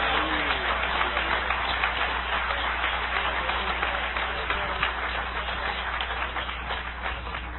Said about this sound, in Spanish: Si es para el Señor, dale fuerte ese aplauso.